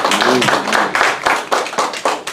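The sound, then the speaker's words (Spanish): Congregation clapping in praise during a bilingual church service, an even, rhythmic run of many claps at a quick steady beat, with a brief voice at the start. “Un aplauso al Señor, que Él vive.”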